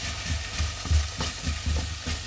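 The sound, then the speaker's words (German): Pumpkin and tomato paste sizzling as they roast in a pan, a steady loud frying hiss with soft scraping stir strokes recurring throughout. “Vom Kürbis und vom Paradeismark. So, noch ein bisschen anrösten.”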